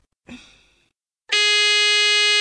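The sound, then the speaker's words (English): Two quiz buzzers triggered by pressing phone buttons: first a short electronic tone that fades quickly, then after a brief pause a loud, steady, harsh buzz that holds to the end. “To answer, they press any button on their phone and we'll hear a buzzer. Let's hear yours, Jason. And yours, Vanita?”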